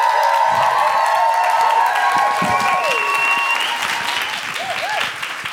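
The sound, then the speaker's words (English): An audience applauds and cheers to welcome a performer to the stage: dense, loud clapping runs throughout, with a few whoops and shouts over it, thinning slightly toward the end. “Put your hands together and welcome to the stage, Deborah Frances White.”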